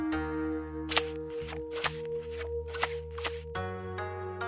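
Fortune-telling cards being shuffled for a reading: several brisk, papery riffles and snaps over a steady sustained musical drone.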